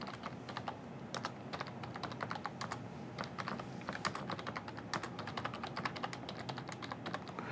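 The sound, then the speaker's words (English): Computer keyboard typing as a SQL statement is entered: a long, steady run of many quick keystroke clicks in an irregular rhythm, with no voices. “Oh, yeah, it would help if I typed varchar correctly.”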